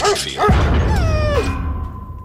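A person, a veterinarian, imitates a dog barking with one sharp bark followed by a drawn-out, whine-like yelp that falls in pitch, loud and alone.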